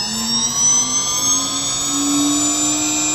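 Aircraft engine as the throttle moves to its first detent: a steady, loud jet-like whine with high harmonics, its low tone climbing slowly and slightly throughout.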